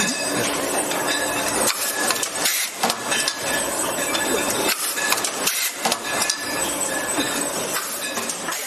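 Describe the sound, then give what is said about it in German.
A corking machine presses natural corks into bottles, giving a continuous loud mechanical clatter of rattling and clanking with repeated knocks and no voices. “beziehungsweise auch von der Korkmaschine. Hier wird jetzt ein Naturkorken reingepresst.”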